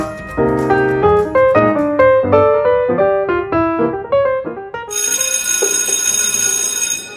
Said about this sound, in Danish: Endelig ringede klokken.